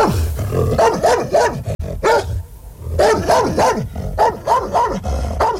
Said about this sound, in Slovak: Podišiel som k ním a zabrechal som, ako najstrašnejšie som vládal.